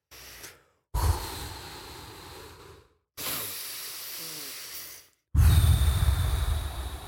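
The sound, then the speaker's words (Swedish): A person with eyes closed takes three deep, audible breaths on request. Each long, hissing breath lasts about two seconds, with a short silence between them, and the last is the loudest. “tar tre djupa andetag ljudligt”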